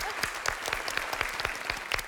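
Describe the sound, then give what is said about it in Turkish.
Applause on a televised quiz game: brisk, steady hand clapping with an even rhythm, fairly faint, with no voices over it. “ikinizi de alkışlıyorum”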